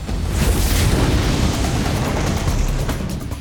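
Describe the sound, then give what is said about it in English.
A burst of fire blasts out as a loud, steady roar. The broad, rushing noise holds for about three seconds and eases slightly at the end. “Shango let out another burst of fire at Eshu.”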